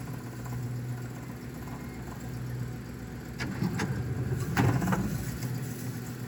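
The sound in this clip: A green Ford Bronco engine fitted with an Edelbrock Pro Flow 4 fuel injection system runs with a low, steady hum that swells somewhat louder partway through. The sound is fairly faint, with no talk.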